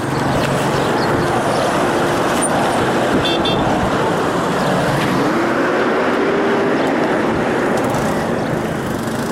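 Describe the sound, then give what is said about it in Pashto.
Continuous road traffic on city streets in Lashkar Gah, with ordinary cars passing alongside security forces' vehicles and police Ranger pickups, forming a steady, loud rumble with a faint tonal whine partway through and no voices. “په هرو څو دقیقو کې د عادي موټرونو تر څنګ د امنیتي ځواکونو هم وی ټانګ او د پولیسو رینجر تر سترګو کیږي”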